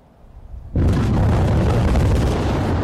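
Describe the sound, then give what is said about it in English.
Explosive blasting at an open-cast coal mine in India: after a faint, uneven rumble, a single sudden boom breaks in and swells into a loud, sustained roaring rumble that barely fades. “Whoa! That's the blasting. We're a bit close then, aren't we?”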